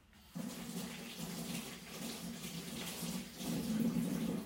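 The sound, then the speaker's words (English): Tap water runs as hands are washed to rinse off cooking oil in a kitchen. A steady gushing stream starts abruptly after a brief quiet moment and continues to the end, swelling slightly louder near the finish. “I'm just going to wash my hands, I've got some oil on them.”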